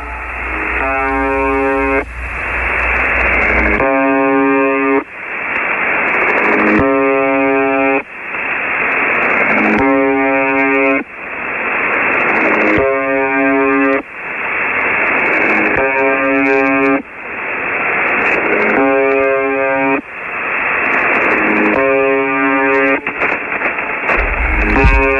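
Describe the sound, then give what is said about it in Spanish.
Buzzing pulses from a Russian shortwave ghost radio station: a harsh, monotonous buzz repeats in long, even bursts with brief breaks, over a steady layer of radio hiss and static. “La VB76, que es la más famosa, un momentico, escuchemos antes de irnos el pulso de esta emisora rusa.”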